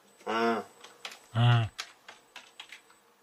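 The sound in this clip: Fingers type on a computer keyboard with scattered light, quick key clicks that come irregularly, while a voice makes two drawn-out vocal sounds over them.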